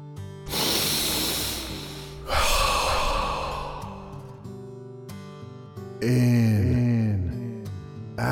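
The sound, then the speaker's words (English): Deep breathing in and out during a guided breathing exercise: about three long, loud, airy breaths, each a broad rush of air, the last carrying a voiced, sighing tone. “Exhaling out the toxins, the bad thoughts.”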